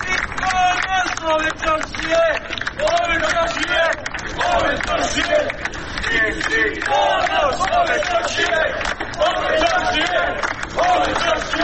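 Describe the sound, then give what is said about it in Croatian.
Citizens outside a police station shout and applaud as a teacher walks out, a dense, continuous din of many raised voices mixed with clapping throughout. “građani su je dočekali aplauzom i povicima da je ponos čaršije.”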